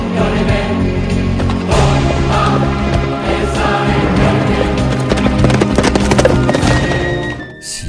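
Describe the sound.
Horse hooves galloping, a fast rapid clatter of clip-clop beats running continuously and loudly for about eight seconds over a dense background, then cutting off abruptly at the end.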